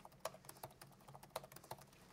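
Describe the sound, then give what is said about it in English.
Keystrokes on a computer keyboard as the word cheese is typed several times: a quiet run of irregular clicks, with a few sharper taps standing out and no voices. “So I'm going to type the word cheese a few different times.”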